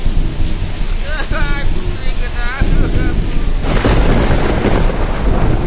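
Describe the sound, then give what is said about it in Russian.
Thunder from a storm directly overhead strikes an island, loud rumbling crashes that swell over the steady roar of wind and rain. “Теперь гроза прямо над нами. Ударила прямо в остров.”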